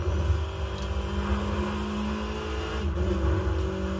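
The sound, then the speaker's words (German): A car engine in a video game drones as the vehicle drives off, a steady humming rumble with a few gentle revving swells and no pauses. “Okay, Abfahrt. 11 Kilometer fahren.”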